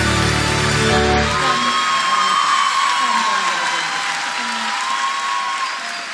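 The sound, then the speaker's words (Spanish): Steady applause and cheering from a crowd at a cumbia performance, dense loud clapping noise with a high whoop or whistle running through it, holding level for several seconds before easing slightly at the end. “Los aplausos bien fuertes para mis nenas, mis bebotas, Solcito, Pelusa.”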